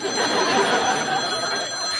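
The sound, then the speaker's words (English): A telephone rings with a loud, continuous electric trill that fills the whole moment and holds steady without a break. “Got this ringing in my ear now. It's the telephone.”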